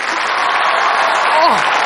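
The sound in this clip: A group applauds a performer about to swallow a large light bulb, with dense, steady clapping that stays loud throughout and a voice briefly mixed in near the end.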